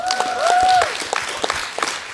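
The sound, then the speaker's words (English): Audience applause for a speaker introduced at a church vocation talk: dense, steady clapping that swells early and then tapers. A brief sustained tone rings over the first second. “So let's have a big round of applause for Sister Berna.”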